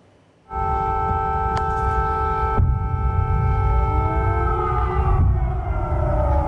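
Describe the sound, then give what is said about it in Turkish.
Air raid sirens sounding in Kyiv during a Russian missile attack: a loud, sustained droning wail of several steady tones that starts abruptly, with some pitches gliding toward the end. “Rusya'nın füze saldırısına uğrayan kentte sirenler çaldı.”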